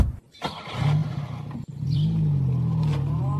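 A car engine starts and revs, with a sharp thud partway through, then settles into a steady low drone as the car drives off.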